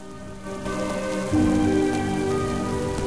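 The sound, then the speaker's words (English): A rain shower pours down in a dense, steady hiss of drops striking the ground. It swells in two quick steps early on, then holds at a loud, even downpour. “Suddenly, a shower of rain cascades over him.”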